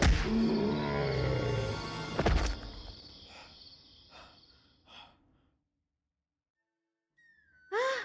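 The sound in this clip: A tiger growls and fights: a loud snarling burst fades into a few fainter rumbles, then a long silence before one short final snarl.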